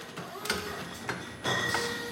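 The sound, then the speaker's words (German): A bottle labelling machine running in a winery cellar: a faint, steady mechanical hum with a few sharp clicks recurring at intervals. “Die Maschine ist eingestellt, dass ein Etikett wie das andere läuft. Aber man schaut eben trotzdem immer nach, und ob der Abstand zum Rückenetikett passt.”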